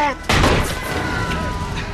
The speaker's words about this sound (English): As they approach a sporting goods store, a shotgun fires at them through the door.